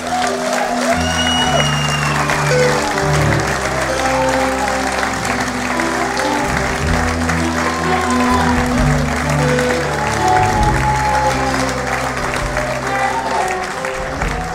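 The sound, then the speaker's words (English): Audience applauding a warm welcome for a former Calgary Flames hockey player at an Owen Sound event: loud, dense clapping that holds steady for the whole stretch without letting up. “Please put your hands together. A warm Owen Sound welcome for Lanny McDonald.”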